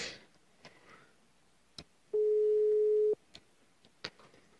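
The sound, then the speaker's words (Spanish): Ringback tone of a telephone call being dialed, heard as one steady, medium-pitched electronic tone lasting about a second, with faint clicks before and after. “Listo, está marcando en este momento.”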